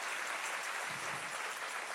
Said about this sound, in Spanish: Si ese es el aplauso, dáselo